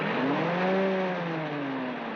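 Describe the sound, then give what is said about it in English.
A car engine revving in a steady, whirring drone whose pitch swells slightly and then eases back down, with no voices over it. “Now, listen to that motor. 300 brontosaurus power.”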